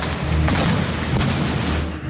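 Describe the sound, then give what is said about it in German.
Booming blasts from a bombard cannon firing balls into water during a stage show, two sharp reports under a second apart over a dense, continuous rumble of noise. “Es knallt und raucht. Eine Bombarde feuert Kugeln ins Wasser.”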